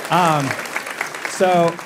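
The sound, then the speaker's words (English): Brief audience applause, a soft steady patter of clapping that runs beneath a speaking voice, which is heard at the start and again near the end. “I like a little some applause for Chelsea. That's nice. Yeah, there we go.”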